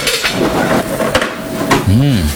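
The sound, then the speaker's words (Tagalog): A metal lid is lifted off a frying pan, giving a few short clinks and knocks amid talking voices. “Matingnan nga. Mabuksan niya itong kawali.”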